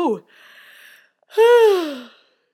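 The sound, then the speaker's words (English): A person yawns, starting with a short breathy intake and then a long voiced yawn whose pitch sweeps up and then down before it trails off. “yawn.”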